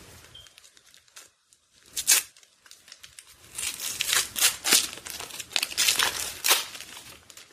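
Paper crinkling and tearing as a small package is unwrapped, with many crackly rustling bursts that grow louder and denser in the second half. No voices.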